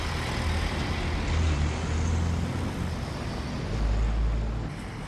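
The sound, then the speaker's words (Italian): Low rumbling road noise of a truck passing by, a steady broad hiss that swells heavier in the low end around the middle and again near the end, with no voices. “Aspettate che finisce il rumore del camion e poi inizia.”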